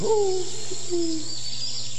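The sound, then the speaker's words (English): Owl hooting, a couple of low, drawn-out tonal hoots in the first half that fade away, over a steady background hiss and hum. “Who? Oh, it's you again, the same old owl.”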